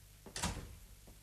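A door being closed, a single soft thud with a faint, brief click just after, quiet overall and with no talk.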